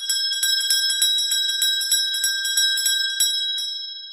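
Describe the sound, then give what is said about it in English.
A tiny bell attached to a gravestone rings as a premature burial alert, pulled by a line from inside a coffin. It gives many quick, bright, high-pitched rings in an uneven rhythm, heard alone, with the last ring trailing off. “We run a line from within your loved one's final resting place up through the earth and out to a tiny bell attached to their gravestone. All they need do is tug on the line from inside the coffin, and a passerby will hear their cry of life.”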